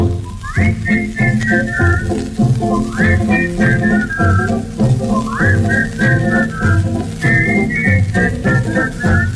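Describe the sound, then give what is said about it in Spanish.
Whistled melody carries a vintage Spanish-language dance tune, rising in four bright repeated phrases over the band's steady, loud accompaniment. “Vamos todos a silbar.”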